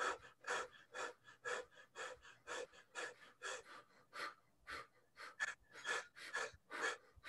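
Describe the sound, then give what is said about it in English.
Rapid fire-breath breathing exercise: many quick, forceful breaths pumped out in a steady, fast rhythm, each one a sharp, breathy puff, with no talking. “This is a fire breath. 20 seconds.”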